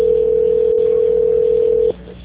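A telephone tone sounds during a call transfer: one steady, single-pitched beep holds for nearly two seconds, then cuts off abruptly, leaving faint line hiss.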